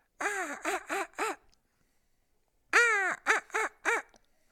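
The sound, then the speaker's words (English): A man's voice imitates a crow call, the kind used to make a wild turkey gobble during a hunt. There are two bursts of short, harsh, nasal caws separated by a pause, sounded alone. “a crow call, you can kind of lull him. Yeah. It doesn't make sense. Lull him into gobbling. In other words, what you're doing is I'll crow, ah,”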